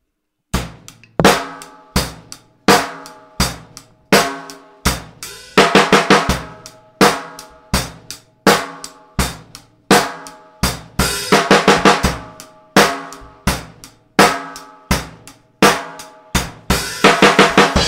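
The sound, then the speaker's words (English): Rock drumming on a kit, with a steady beat of evenly spaced, sharp hits broken up by a few rapid 16th-note single-stroke roll fills on the snare drum. The fills come as dense bursts of quick, even strokes, and no one talks. “a simple fill to use with this beat might be just, you know, 16th notes played in a single stroke roll on the snare drum. So that would sound like this.”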